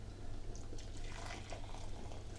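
Hot stock poured from a pan into a measuring jug makes a steady, continuous splashing and trickling of liquid, fairly faint and unbroken throughout.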